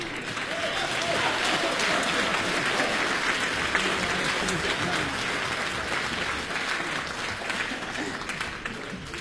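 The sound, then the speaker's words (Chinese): Audience applause on a Beijing entertainment show, greeting an elderly woman's sung performance; dense, continuous clapping that holds steady and eases slightly toward the end. “哎呦，我谢谢您的鼓掌欢迎。”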